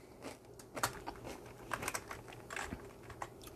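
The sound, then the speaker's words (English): Soft typing on a computer keyboard, with many light, irregular keystrokes in quick clusters and short pauses, faint throughout. “Let me put that down. Let me type it in.”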